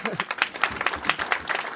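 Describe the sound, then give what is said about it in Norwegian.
Audience applause as a speaker is called on stage at a business event: brisk, many-handed clapping with uneven peaks, moderately loud and sustained. “Applaus!”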